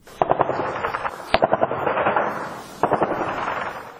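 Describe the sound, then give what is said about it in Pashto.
Heavy-weapons gunfire at the edge of Lashkar Gah city in Helmand: a few rapid bursts of repeated loud reports, with one sharp isolated crack between them, all over a rumbling background. “ډزې پخوا هم وې، خو په ولسوالیو کې اوس چې د لشکرګاه د ښار له یوې څنډې څخه د غټو مرمیو غږونه اورېدل کېږي”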